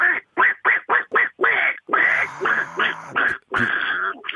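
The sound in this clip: A human voice imitating a duck quacking in a contest: many loud, nasal quacks in quick succession, some short and clipped, others drawn out, with no words between them.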